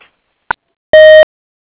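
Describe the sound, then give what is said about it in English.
A voicemail recording tone on a phone line: one short electronic beep held at a steady pitch, loud and alone, preceded by a brief click. “If you would like to leave a voicemail or a voicemail box, please stay on the line and wait for the tone.”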